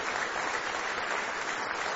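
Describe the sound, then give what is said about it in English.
A church audience claps in praise, producing dense, steady applause that fills the whole moment at an even level. “Give Him one more hand clap of praise tonight if you love Him.”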